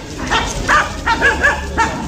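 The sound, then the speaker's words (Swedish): A female hunting dog gives a few short, high, tonal barks and yips, each loud and separated by brief gaps. “Hon är en bra jakthund.”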